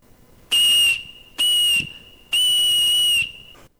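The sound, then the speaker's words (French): A reconstructed prehistoric whistle made from a reindeer phalanx bone gives three shrill, steady high-pitched blasts: two short ones, then a longer third. The blasts are loud and clear, with no voices. “Donc ce sifflet en phalange de renne est un instrument qui a été reconstitué à l'identique d'après les vestiges archéologiques. Et donc là, il y en a pour 3 secondes.”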